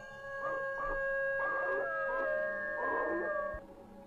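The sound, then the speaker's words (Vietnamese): A dog raising its muzzle and letting out a long, eerie howl, shaped into three wavering howling phrases over a steady tonal background. “con chó đột nhiên ngửa cái mõm lên trời. Sau đó nó chu lên một tràng dài nghe đến ghê rợn.”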